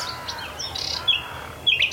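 Nightingale song at dawn beside a marsh forest: a few short, high chirps and whistled phrases, fairly faint over a soft, low background rumble.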